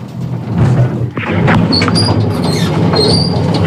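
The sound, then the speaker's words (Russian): Elevator doors opening with a loud, continuous mechanical rumble, a brief dip and soft thud early on, and faint high squeaks scattered through the rest. “Двери открылись.”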